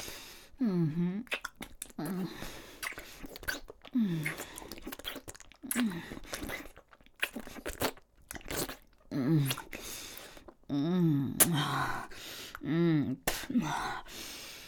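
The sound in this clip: A dog chews and crunches food in repeated bites and crunches, heard under nearly continuous talk from a person praising it.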